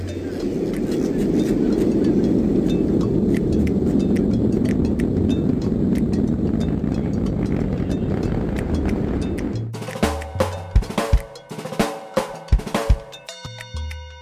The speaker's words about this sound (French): C'était une fusée.